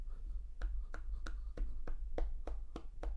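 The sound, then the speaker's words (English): Single person clapping, a slow, evenly spaced run of sharp claps over a steady low hum. “that's me applauding.”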